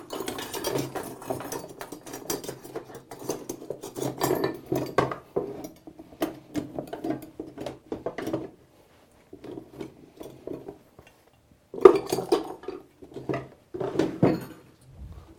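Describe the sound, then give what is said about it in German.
Kneading hooks being fitted into a food processor make many metallic clicks, rattles and scrapes. The clatter stops for a short pause, then a sharp click starts a final burst of rattling. “Ich stecke sie in die Küchenmaschine rein”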